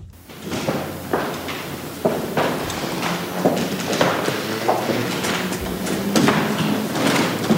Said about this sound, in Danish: Det her er lyden af sko. Kongelige sko, nærmere bestemt på slotsgulvet i Oslo,